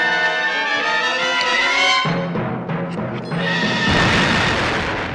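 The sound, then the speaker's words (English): Blasting charges exploding: after a tonal passage, a sudden broad, rumbling burst erupts, then settles and swells again into a second loud, noisy blast toward the end, with no voices. “Cut the blasting switch. I can't, it's already firing. Well, check the wires!”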